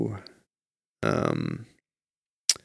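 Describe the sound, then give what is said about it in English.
A single long, croaky burp with a rough, buzzing tone lasts under a second and is clearly loud. It stands between brief other sounds, and a sharp click follows it. “Why do you keep burping? I only burped once.”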